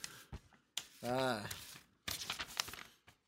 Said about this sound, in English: I'm going to open it here. Ooh. On mic so you can hear it. That's me tearing like the envelope.